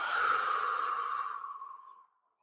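A long, slow breath out during a guided relaxation exercise, a soft airy exhale that starts steady and gradually fades away over about two seconds, heard alone.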